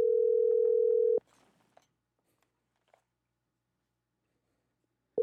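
Telephone dial tone after a call hangs up: a loud, steady tone runs for about a second, then stops, leaving a few faint scattered clicks before the tone briefly returns at the end.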